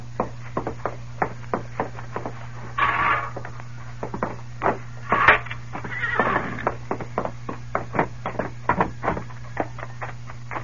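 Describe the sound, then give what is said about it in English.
A horse whinnies, a horse ridden in by a youngster from Mud Flats. Two bursts of neighing rise over a steady run of sharp hoof clops or knocks, with a low hum throughout. “Look at the horse that youngster rode from Mud Flats.”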